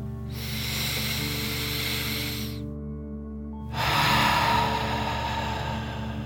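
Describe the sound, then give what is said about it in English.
A deep breath in and then out through the mouth: a long, soft, rushing inhale, a short quiet pause, then a louder, breathy exhale. Steady low tones hold underneath throughout. “and then out through your mouth, pretending you are breathing fire. Ready? Okay. Deep breath in and out.”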